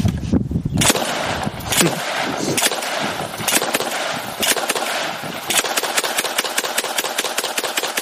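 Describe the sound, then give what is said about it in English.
A fully automatic 12-gauge shotgun fires many rounds: a few loud, spaced blasts give way to a rapid, rattling burst of shots toward the end. “that's supposed to be a 12-gauge shotgun, correct? Yeah. Did you see how little barrel rise he had he had his finger on the trigger and he was popping off multiple rounds?”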